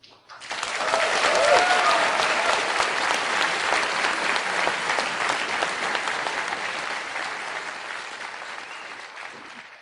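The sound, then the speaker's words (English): A lukewarm audience applauds at the Star Wars: The Old Republic launch, the clapping swelling quickly, then holding at a steady, moderate level before tapering gently over nearly ten seconds. “I felt like, wow, this audience does not sound as excited as they should be. Yeah, that's like the round of applause that you give for like the third prize winner for the science fair.”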